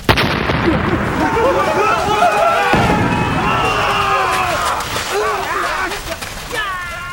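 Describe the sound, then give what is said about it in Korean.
Two gunpowder-loaded cannons explode on a burning shipwreck: a sharp, loud blast opens into a sustained heavy rumbling roar, with voices over it. “난파선의 잔해가 불타는 도중에 화약이 장전돼 있던 대포 두 문이 폭발하였다. 그 폭발음 때문에 조선의 지휘관과 병사들이 혼비백산하여 도망쳤다가는”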